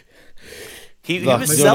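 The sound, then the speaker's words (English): A voice imitates the heavy, deep breathing of a tired wrestler during a slow match: a long airy breath, then a louder, rasping, partly voiced exhale. “But he was breathing deep, pretty heavy at some stage where he was like,”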